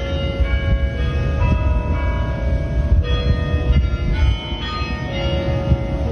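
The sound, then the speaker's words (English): Bells at the University of Michigan bell tower play the melody of a Jewish prayer of healing, loud, ringing tones that overlap and sustain continuously, notes changing every second or so. “That is the sound of bells at the University of Michigan Bell Tower.”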